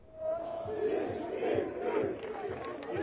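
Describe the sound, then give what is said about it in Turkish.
Galatasaray fans celebrating the club's 26th championship at Güven Park in Ankara raise a loud crowd roar of chanting and cheering voices that swells and ebbs in waves. “Ankara'daki kutlamaların adresi Güven Park. Yüzlerce taraftar burada 26. şampiyonluğu coşkulu bir şekilde kutluyor.”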